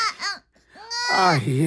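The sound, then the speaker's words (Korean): An infant crying in short, wavering wails that rise and bend in pitch, with a brief pause before a louder, sustained cry. “아가, 우지 마라, 내 새끼야. 너도 너희 모친이 죽은 줄을 알고 우는 것이더냐? 아니면 배가 고파서 울음을 우는 것이냐?”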